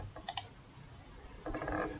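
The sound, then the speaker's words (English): Computer mouse clicks as a player selects decline: two sharp, faint clicks in quick succession, followed later by a soft sustained swell of sound. “Okay, you know, I'm going to click decline just to see what happens.”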